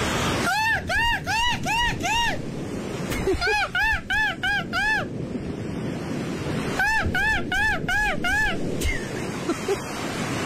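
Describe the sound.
A man imitates a seagull call, giving three bursts of rapid, high, arching squawks repeated in quick succession over steady wind and surf-like noise.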